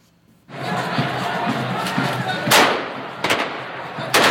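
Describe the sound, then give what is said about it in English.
Machine guns are fired into the air by hundreds of young men at a funeral procession in Baghdad. A few sharp, loud bursts crack over a continuous roaring crowd. “Hundreds of young men fire machine guns into the air as their comrades carry the coffin of a dead boy into Baghdad's Abu Hanifa Mosque.”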